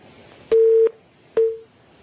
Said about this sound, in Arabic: قطع اتصال.